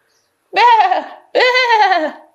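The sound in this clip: Sheep bleating: two drawn-out, wavering bleats of equal length, loud and clear, separated by a short silence.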